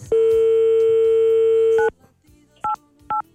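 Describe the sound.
A telephone dial tone hums loud and steady on a call, then cuts off. After a short gap come two brief dialing beeps.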